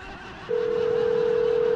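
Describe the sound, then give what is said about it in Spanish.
A telephone dial tone while a call is placed: a steady, clean, mid-pitched electronic tone that begins after a short stretch of low background hiss and then holds unbroken to the end. “Márcale otra vez tú, a una y yo marco a la otra.”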